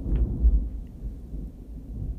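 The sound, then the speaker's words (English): Thunder from a big thunderstorm rolls as a deep, continuous low rumble, loudest near the start and then holding steady without any talking. “can you hear that? It's a big thunderstorm.”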